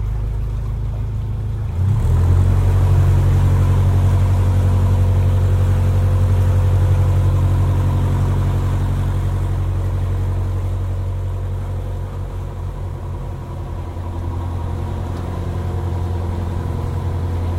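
A car accelerating inside a tunnel, a loud continuous low engine drone that swells and climbs briefly in pitch near the start, then holds steady and eases slightly later on.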